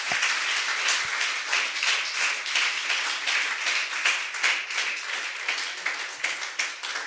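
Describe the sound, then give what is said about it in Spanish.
Sustained applause from a church audience clapping for the Lord during a service, a dense, steady patter of many hands that holds at an even volume for the whole stretch. “Hermano bendito, dele un aplauso al Señor, hermano.”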